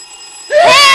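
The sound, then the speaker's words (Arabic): A telephone rings, bursting in abruptly midway as a loud, bright, bell-like electronic tone with ringing overtones, after a quieter steady high-pitched tone. “ايه ده؟ ايه ده؟ التليفون رن نطق.”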